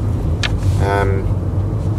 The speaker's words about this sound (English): Driving through Papakura now,